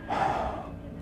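A single audible human breath: a sharp, gasp-like intake that is strongest at the start, then eases into a softer, fading exhale.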